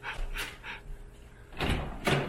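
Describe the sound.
A hotel room door opens by key card scan, with a few soft clunks and rustles followed by louder latch clicks near the end.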